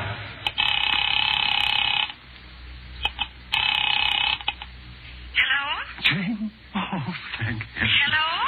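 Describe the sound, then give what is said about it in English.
Two long bursts of telephone ringing heard through the handset after a number is dialed: a buzzy, warbling ring with a pause between bursts, followed by a voice talking. “A telephone! Now I could get help. With someone who would save me, take me out of this place. Picking it up quietly, I dialed my daughter's number, Alec Bartlett's wife.”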